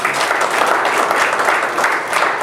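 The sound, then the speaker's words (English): Church audience applauding to praise the Lord, a loud, sustained burst of many hands clapping with a dense, even texture that swells slightly in places and has no speech over it. “Give the Lord a hand of”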